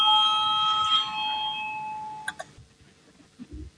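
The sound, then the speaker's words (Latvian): A parliament bell calling members to a vote: a steady electronic ringing tone fades away, followed by a few sharp clicks and soft thumps. “Lūdzu, zvanu, balsosim par septīto tieslietu ministra Bordāna priekšlikumu.”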